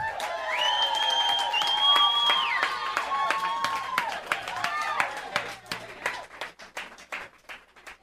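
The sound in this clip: Audience applause and clapping welcome a singer onto the stage at a live radio-station performance. Sustained tones ring over the crowd early on, then the clapping thins into scattered, sharp claps as it fades out.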